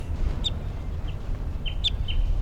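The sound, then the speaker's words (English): A wild orange male bird calls with a few short, high chirps spread across the moment, over a steady low rumble of background noise. “Wild bird's coming down. It's an orange, orange male.”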